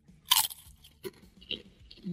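Cheese-flavoured Takis chips are crunched and chewed: one sharp, loud crunch, then a few softer chewing crunches at irregular intervals over quiet background.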